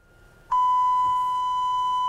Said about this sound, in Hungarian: most mindjárt meghallgatjuk ugyanazt az 1 kHz-es színusz hangot, amit én is megpróbáltam az előbb kiadni magamból.